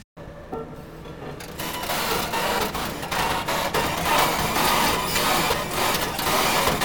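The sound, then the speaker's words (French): Construction machine at work, from a field recording: a dense, continuous mechanical grinding and rattling that holds steady and loud throughout, thickening after the first second or so, with no voices. “cette machine de travaux fait des bruits incroyables. Tiens, d'ailleurs, j'en ai une de machine de travaux, là.”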